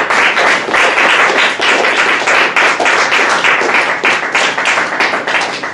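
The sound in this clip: An audience applauds the speaker at the close of a talk, with dense, loud clapping that continues steadily through the whole stretch and no voices over it.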